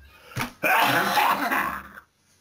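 A man coughs, a short harsh burst followed by a longer rasping cough or throat clearing, loud and alone, then quiet.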